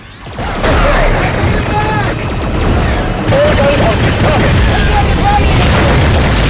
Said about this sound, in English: Helion ships take off and attack the Necromunga's. Imam leads his wife and child through the streets below. A Necromunga opens fire on a Helion fighter.